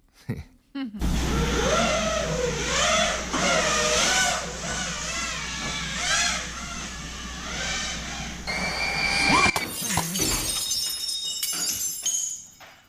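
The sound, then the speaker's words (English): A drone flown in a backyard buzzes with a steady, wavering motor whine for several seconds, then crashes through a sliding glass door with a single loud shattering impact, followed by scattered tinkling of glass. “It's a guy flying his drone around in his backyard, and he crashed it through his sliding glass door into his living room.”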